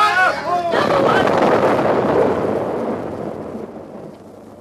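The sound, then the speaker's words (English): A German guided rocket explodes in wartime London. A brief voice comes first, then a single massive blast erupts and rumbles on, slowly fading away over several seconds. “Today, the Germans launched a new terror weapon against the city of London. This weapon is a guided rocket fired from fixed emplacements on the French coast.”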